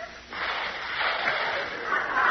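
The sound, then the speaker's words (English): A person imitates a snore through one nostril, producing a continuous, harsh, breathy rasp that swells slightly and holds for about two seconds. “I want a snore, not a dive bomber. Oh, I'm sorry. I was using both nostrils. I'll cut down to one nostril.”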